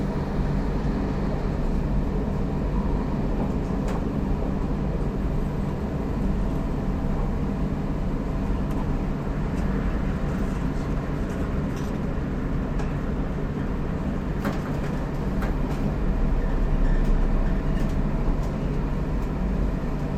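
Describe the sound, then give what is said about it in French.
Loud, continuous rumble of a train running into the Terre Noire tunnel, a dense steady roar with a few brief sharp clicks over it. “Début du tunnel. On passe le tunnel de Terre Noire.”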